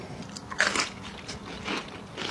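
Crunchy bites into grilled bread topped with grated tomato, olive oil and salt, the classic Catalan starter: a few crisp, crackling bites with the chewing sounds fairly close and clear, and no voices.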